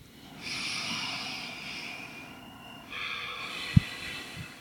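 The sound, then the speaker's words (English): A deep breath taken during yoga practice, heard as two long, airy, hissing stretches of breath separated by a short pause, with no talk over it. “So maybe we can take a deep breath together.”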